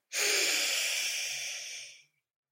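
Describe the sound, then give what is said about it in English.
One long inhale during a paced breathing exercise: a steady, airy hiss lasting about two seconds that tapers off at the end, alone and without voice. “Now I want you to inhale for four and hold it.”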